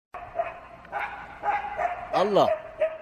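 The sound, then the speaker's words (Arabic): Dogs bark on a deserted shortcut road in several sharp, irregular barks, with one drawn-out yelping cry bending up and back down in pitch near the end. “الله، كمان كلاب.”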